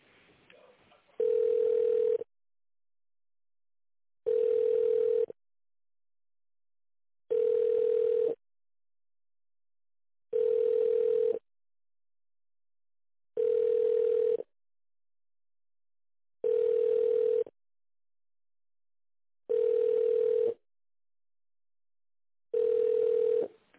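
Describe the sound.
A telephone ringback tone plays while a call is transferred to an accounting department. Eight steady, identical tones of about a second each sound at regular intervals, separated by silence.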